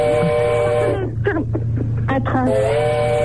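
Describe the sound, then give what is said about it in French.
A train whistle sounds at the railway station in Besançon. The sustained, harmonic tone fills the opening second, breaks off for a stretch of mixed sound, then returns steady and loud at the end. “Un train. Vous êtes... Mais t'es où? T'es dans une gare, t'es à la gare de Besançon?”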